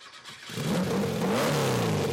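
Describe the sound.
Combustion engine of a 1972 Porsche revving: a quiet start gives way to a loud, throaty engine note that climbs in pitch and holds, with no talk.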